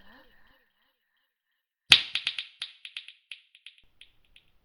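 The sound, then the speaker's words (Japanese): A single crisp finger snap cracks out after a brief faint voice. A quickly thinning series of echoing repeats follows it, fading into silence. “指を鳴らす音が聞こえたら、あなたの催眠は解けるわ。”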